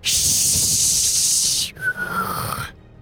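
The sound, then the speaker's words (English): A loud, steady hiss runs for about a second and a half, then breaks into a thin whistle that sags slightly in pitch before cutting off sharply. “you just hear this like hissing whistle”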